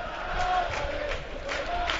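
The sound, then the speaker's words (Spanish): Football crowd noise at Fuenlabrada stadium late in the first half, with the home side leading 1-0: a steady, even roar of many voices holds at a moderate level throughout, with no distinct surges or chants standing out. “Anima el público en Fuenlabrada”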